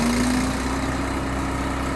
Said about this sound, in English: Then they hook up a grinder. It's mounted on a trailer, and the pods get fed into a metal cone and ground up.